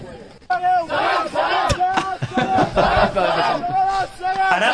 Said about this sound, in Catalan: és el crit de la selecció catalana de Quidditch.